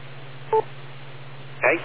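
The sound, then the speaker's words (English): A radio repeater courtesy tone: two brief electronic beeps about a second apart, the first clean and short, the second a rougher, noisier burst, over a low steady hum. “The magic number is 2 seconds after the courtesy tone beep, and then you won't time out the reflector anymore.”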